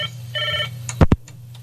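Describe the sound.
A telephone rings with an incoming call on a community radio call-in line: two electronic ring bursts, a short one then a longer trill, over a low steady hum, followed by two sharp clicks.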